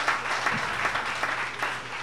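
A group bursts into applause to thank a man for lending a storage container. The clapping is steady and fairly loud, with many hands blending into an even roar.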